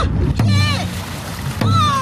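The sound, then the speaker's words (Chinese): Dragon boat crews train on the Songhua River in Harbin at six in the morning, with water splashing and a couple of heavy drum-like thumps under loud shouted voices. “清晨6点的松花江哈尔滨段，鼓点铿锵，浪花飞溅，多支龙舟队开启了一天的训练。”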